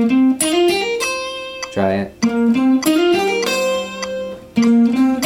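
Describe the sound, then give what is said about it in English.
An electric guitar plays a double hammer-on lick in C, E shape: two eighth notes, then quick sixteenth-note hammer-ons on the second and third strings, ending on the first string, eighth fret. The notes are loud and clear, with a brief spoken remark partway through. “Then on the 2nd and 3rd strings, I'm going to do 16th notes hammer ons. And end on the top string, the first string, 8th fret, and it's gonna sound like this.”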